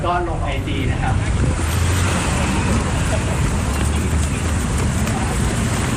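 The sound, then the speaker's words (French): Street ambience beside a canal in Ek Mai, central Bangkok, among modern apartment blocks, upscale restaurants and bars: a dense, steady wash of traffic and wind noise, with faint voices near the start. “Courant plein cœur de Bangkok à Ek Mai, le long du canal, entre immeubles d'appartements modernes, restaurants haut de gamme et bars branchés.”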